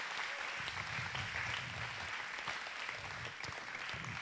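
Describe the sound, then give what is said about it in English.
Audience applause at a church event: dense, steady clapping from a crowd that holds at an even level for the full four seconds, with no voices on top. “And let's give a clap for Kevin again for coming out this weekend.”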